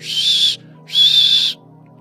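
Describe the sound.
A voice imitates a safety whistle with two shrill, steady, high-pitched blasts of similar length, separated by a short pause.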